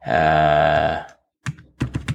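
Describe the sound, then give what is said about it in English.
Loud typing on a computer keyboard, by someone who types heavily. A sustained tonal sound comes first, then a short pause, then a few bursts of sharp key clatter with uneven spacing. “Hold on a second. I'm typing right now, so you might hear that.”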